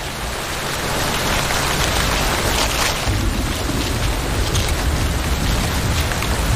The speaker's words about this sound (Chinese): 雨下得更大了，雨滴顺着树叶滑落，淋湿了巢中的欧戈冬雏。